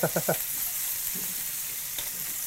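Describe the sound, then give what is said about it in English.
Food sizzles as it fries and browns in hot oil in a pan while Italian food is cooked. A few sharp clattering bursts at the start give way to a quiet, steady crackling hiss that continues to the end. “Just with your fingers with hot oil, just moving around. Whatever. So as soon as you got them brown, nice and golden brown. Ooh, they're getting brown.”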